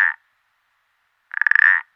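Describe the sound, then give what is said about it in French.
Common parsley frog (Pelodytes punctatus), a small grey-brown amphibian with green spots, croaking: a short call clipped at the start, then after a pause a rapid pulsed, rasping croak lasting about half a second, loud and alone. “Je suis le pélodique ponctué.”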